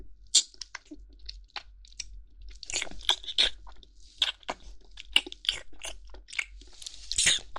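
Crunchy chewing and gnawing while eating, with many irregular crisp bites and crunches, fairly quiet and with no talk over them.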